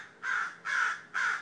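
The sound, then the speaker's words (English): A mother crow caws near a fledgling in a backyard, giving three loud, harsh caws at an even pace with short silent gaps between them. “That sound you hear is the mother crow, and there is a little fledgling crow out here.”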